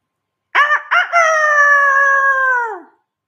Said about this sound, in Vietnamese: Đúng vào lúc này, cũng một tiếng gà gáy cao vút kêu to chấn động khắp nơi.